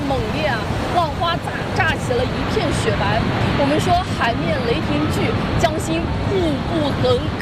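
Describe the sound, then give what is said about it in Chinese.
Tidal bore waves crash over and spill past a 10-metre dam in a loud, continuous, rushing roar of water that stays steady throughout, with excited talk running over it. “此时此刻，它已经撞上了坝顶，并且翻过了我们10米高的这个大坝，明显是比昨天的潮水势头更加的猛烈啊！浪花炸起了一片雪白。”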